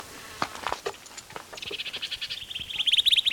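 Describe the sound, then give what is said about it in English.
A bird gives protest notes: a rapid run of sharp, high chirps that quickens into a dense, scratchy chatter toward the end, with no talk. “There's also another bird giving protest notes. So there are 2 birds here.”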